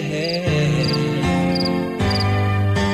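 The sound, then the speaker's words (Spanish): Crickets chirping at night in short, high, repeated bursts, set over sustained musical tones that shift in steps. “Se calla el monte, cantan los grillos. Llega la noche,”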